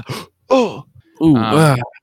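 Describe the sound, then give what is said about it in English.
A voice imitates exaggerated grunts and moans: a few short vocal bursts, the last longest and loudest, with a wavering, drawn-out pitch. “The weird grunts and moans everyone does. Yeah, gasp and everything. Every sentence and stuff is punctuated by like,”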